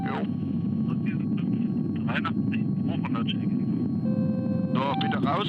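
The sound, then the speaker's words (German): Rotor and engine noise of the rescue helicopter Christoph Gießen coming in to land on a narrow, sandy landing site: a steady, heavy low roar that runs throughout beneath radio voices. “Christoph Gießen, die Einsatzstelle erkannt. Wir gehen zur Landung.”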